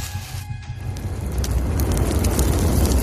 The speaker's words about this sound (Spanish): Tras ingerir una gran cantidad de barbitúricos, Jean-Claude prendió fuego a su casa